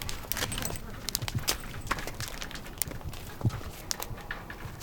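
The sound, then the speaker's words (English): Reindeer on a farm pasture click as they walk: many faint, irregular sharp clicks over a steady background hiss. “He says something cool about the reindeer. They click when they walk, which is very unique to reindeer.”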